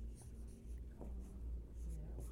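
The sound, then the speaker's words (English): Faint scratching of a pen on paper as someone writes in cursive rather than printing, a series of soft, quick strokes over a low steady hum. “God, I have to write. I can't print.”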